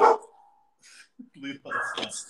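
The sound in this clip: Dogs barking in a few short, sharp bursts separated by brief pauses, fairly loud and close together.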